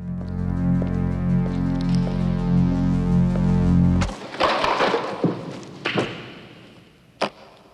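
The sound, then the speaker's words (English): A leather briefcase knocks empty food cartons off a table with a burst of clattering, then comes down with a few dull thuds. A steady low hum fills the first half before the impacts begin. “He knocks them off with his case, then places it down and shows the men the contents.”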